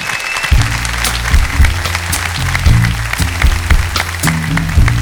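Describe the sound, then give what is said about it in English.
Audience clapping greets a singer as she comes on at a live talk-and-music show, a continuous patter of hands over a low, steady tonal backing that pulses throughout. “A warm welcome, if you would, Miss Rita Lim.”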